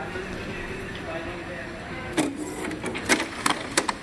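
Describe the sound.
Printer printing, giving off a run of sharp mechanical clicks and clatters in the second half over a low, steady background.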